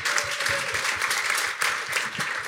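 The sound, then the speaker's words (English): An audience at a live show gives a big round of applause. Many hands clap densely and steadily at an even loudness throughout. “Can we give him a huge round of applause?”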